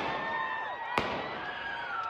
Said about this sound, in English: Gunfire breaking out during a demonstration in Salt Lake City, Utah.